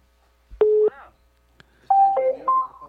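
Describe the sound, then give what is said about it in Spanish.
A telephone call is dialed: a few short, steady electronic tones sound in quick succession, with a brief click between them and quiet gaps around. “A ver, vamos a ver. Estamos llamando.”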